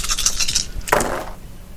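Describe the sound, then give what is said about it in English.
Mixed metal and plastic dice roll across a table during a tabletop game, with a few light clinks followed by a brief rattling scrape, then quiet. “The die rolls.”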